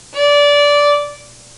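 D note from the third finger on the tape nearest the player, on the A string of a stringed instrument: one bright, steady sustained tone of about a second, starting promptly and fading smoothly, alone.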